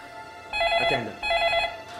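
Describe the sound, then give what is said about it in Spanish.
A telephone rings in two bursts, each a bright warbling electronic tone lasting about half a second. A faint whooshing passes under the first burst, and steady background noise runs throughout. “Luego de varias horas de tensa espera, la familia Dinis recibe otra llamada.”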